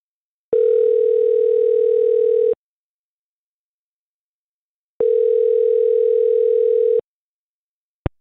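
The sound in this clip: A telephone call ringing out: two steady, evenly pitched ring tones of about two seconds each, separated by a long silent gap, then a brief sharp click at the very end.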